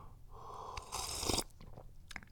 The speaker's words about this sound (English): Anyway, what you need to know is I'm about to drink the first tea of the day. I'm really thirsty. Is it going to be too hot?